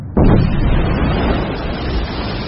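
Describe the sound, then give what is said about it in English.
Kawachi, one of the world's most active undersea volcanoes, erupts in the Solomon Islands: a sudden, loud, deep burst breaks out of silence, then becomes a sustained rumbling roar that slowly eases. “The creation of a new island. This is Kawachi in the Solomon Islands, one of the most active undersea volcanoes in the world.”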